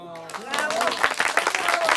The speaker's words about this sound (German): Das Spiel ist jetzt aus und drum klatscht sie hint.